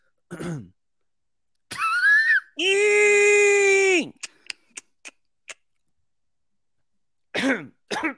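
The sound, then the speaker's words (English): A voice imitates a creature's sharp keening call and then five atonal mandible clicks. The keening is a steady, loud, harmonic tone lasting about a second and a half, followed by five short dry clicks. Brief vocal sounds come before and after. “Sharp keening at 85 cycles, followed by 5 atonal mandible clicks.”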